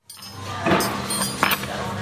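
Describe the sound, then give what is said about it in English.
Busy diner ambience on a weekday morning at an eggs-and-burgers cafe in Portland, Oregon, with short-order cooks at a steaming grill: a steady wash of room noise broken by a couple of bright clatters of dishes. “The tables are mostly full on a weekday morning at Cup and Saucer Cafe, an eggs and burgers type place where the waiters hand orders through a window in the dining room to short order cooks at a steaming grill.”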